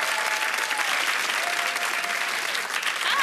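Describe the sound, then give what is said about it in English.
A studio audience applauds a guest's entrance onto a show, with dense, continuous clapping that stays steady and loud throughout. “So can we put our hands together and welcome to the show”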